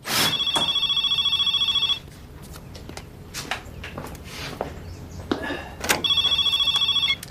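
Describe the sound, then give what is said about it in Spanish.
A telephone ringing in a garage: two long, shrill rings separated by a quiet pause filled with faint scattered knocks and clicks. “El teléfono suena en el garaje de Walt”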